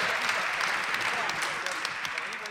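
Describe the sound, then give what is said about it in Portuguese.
Audience applause at a live stage show, a continuous dense clatter of many hands clapping, steady and moderately loud throughout. “Uma salva de palmas para eles, por favor.”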